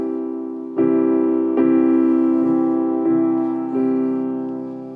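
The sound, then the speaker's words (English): A sustained, warm musical chord rings out and is struck again five times in a slow, fairly even pulse, each strike swelling and then slowly fading away. “And this is a beautiful chord that sounds like this.”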